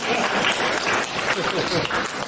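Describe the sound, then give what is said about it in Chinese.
Audience applause rolls on as a dense, continuous wash of many hands clapping, holding an even, fairly loud level throughout. “你看鼓掌的就是了解你。”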